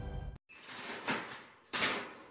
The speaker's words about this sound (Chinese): 牢房门被打开了